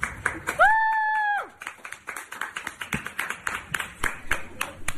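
An audience at a university cheers and claps for a Black student: a short, high, rising whoop comes first, then many quick, loud hand claps follow in a brisk, uneven patter.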